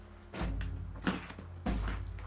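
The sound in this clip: Door of a lamb stable being opened: a few faint, dull knocks and scrapes of the door moving, spaced out and quiet against low background noise.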